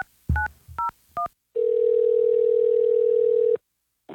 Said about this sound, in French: On va appeler notre personne gagnante maintenant.